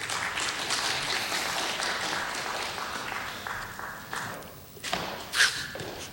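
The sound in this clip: An audience applauds to welcome a speaker back on stage, with steady, dense clapping that gradually thins toward the end, where a few louder individual claps stand out.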